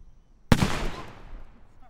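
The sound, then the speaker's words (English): A firework set off at a safety demonstration in Marriottsville gives one sharp, loud bang, followed by a rumbling tail that fades over about a second. “what you just heard was a firework being set off by someone at a safety demonstration in Marriottsville”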